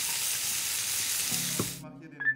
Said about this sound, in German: Den Spargel goldbraun anrösten und die geviertelten Radieschen dazu.